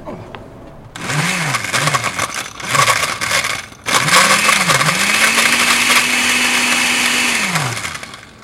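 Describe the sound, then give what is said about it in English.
A blender whirs as it blends a drink, a few short motor bursts that rise and fall in pitch, then a long, loud, steady run that winds down at the end. “All right, let's go blend. Let's go blend. I'll do the blending. Should I do the blend?”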